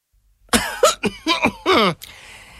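Loud throat clearing comes as a quick run of several raspy, cough-like bursts, the last one longest, then fades to quiet.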